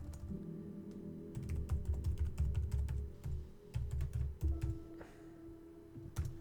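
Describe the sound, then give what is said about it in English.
Typing on a computer keyboard: many crisp, light key clicks come in quick, uneven runs separated by short pauses, fairly faint over a low steady hum. “Actually, just trying to type.”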